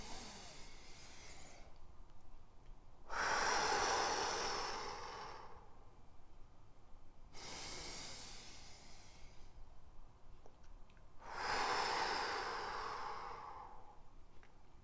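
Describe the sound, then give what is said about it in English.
Slow, deep breathing during a breathing exercise comes as three long, airy swells spaced several seconds apart. Each one is soft and faint, with no talking. “We're going to breathe in nice and slowly and deep. 2/3 of your breath should be into your stomach. 1/3 should be up into the chest.”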